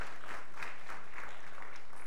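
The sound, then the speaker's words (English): Faint audience applause thanking a church choir, a steady wash of hand claps holding at an even level for its whole short span. “You want to give a hand clap of thanks? Yeah, sure.”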